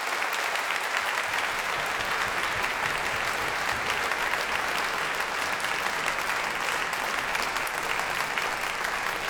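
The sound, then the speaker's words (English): An audience applauding at the Proms in the Royal Albert Hall: dense, steady clapping that holds at one level for about nine seconds. “But there is time for you to signal your full-throated approval of Jonathan Bate, Gabriel Badamozzi, and Andrew Sachs.”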